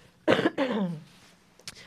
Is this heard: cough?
yes